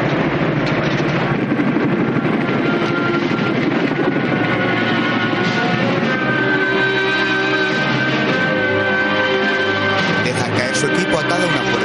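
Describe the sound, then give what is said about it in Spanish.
Helicopter noise as paratroopers jump from a military helicopter, a loud, continuous engine and rotor roar that stays steady for the whole stretch. “Tras él, Highway también se arroja del helicóptero.”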